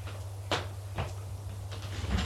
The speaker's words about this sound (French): On a sonné à la porte. La bonne va ouvrir.